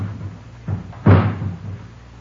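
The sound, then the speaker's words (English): A ladder is set against the side of a house, heard as a soft knock and then one heavier, dull thud that fades out alone. “Mary, someone's putting a ladder against the side of the house. They're going to climb in one of the windows.”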